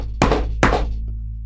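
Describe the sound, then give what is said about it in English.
Two heavy knocks on a door, a little under half a second apart, each a dull, loud thud over a low steady hum. “What, you know, knocks in my stories are never a good thing, right?”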